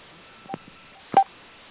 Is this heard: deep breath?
no